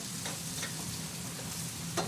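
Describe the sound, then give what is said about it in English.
Sausages frying in a pan as they brown to golden, giving a steady, dense sizzle throughout with a few soft scraping stirs mixed in. “and kind of press it down. So you want to get, render the sausages really to a golden color.”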